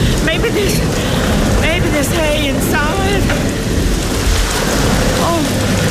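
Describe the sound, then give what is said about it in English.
Heavy rain pours in a steady loud hiss with a low rumble of thunder underneath, while voices call out over the downpour. “Hurry up, there's a big rain coming.”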